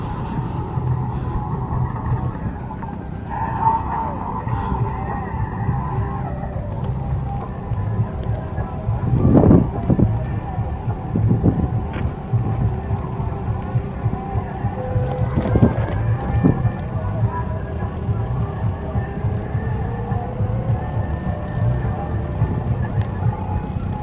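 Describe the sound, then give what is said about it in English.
Ambient outdoor noise at a desert arts festival: a steady low rumble and wind buffeting the microphone, with a few louder thumps and brief tones rising out of the wash over about twenty seconds. “I'm gonna now try to capture some of the sounds of Burning Man.”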